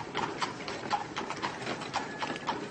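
Hooves of a horse pulling a carriage clip-clop in a steady, even rhythm, a crisp series of faint knocks with no talk over them.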